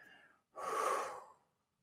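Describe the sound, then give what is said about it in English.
Slow outward breath during a guided meditation: a soft, airy exhale lasting about a second, preceded by a fainter brief breath, heard alone and quietly with no talk. “Breathe that energy into you, strengthening you, healing you. And breathe it back out down into the ground.”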